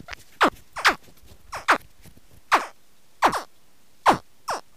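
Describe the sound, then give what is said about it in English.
Baby American alligators give a series of short, chirping calls, each sweeping sharply downward in pitch. The calls come singly or in quick pairs, loud and clear against a quiet background. “That's the sound of baby alligators.”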